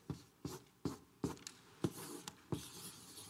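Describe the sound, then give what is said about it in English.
Pen-on-paper strokes as a picture is drawn: a run of several evenly spaced scratchy strokes in a steady rhythm, each a short soft swipe, faint and alone. “Now, I'm drawing this picture as a favor to Joe today, but in real life, he'd have to draw his own picture”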